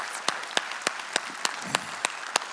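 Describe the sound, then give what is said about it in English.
Audience applause for first-time guests: a steady wash of clapping cut through by sharp, accented claps falling in a regular, even beat. “Can we give it up for all of our first time guests?”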